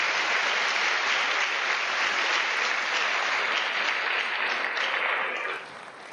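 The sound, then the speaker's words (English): Applause for the faculty, staff and administrators of a county school district: dense, steady clapping from a large audience that holds at an even level, then drops off slightly near the end. “I'd ask you to give all of our faculty, our staff, and our administrators within Hamilton County Schools another round of applause”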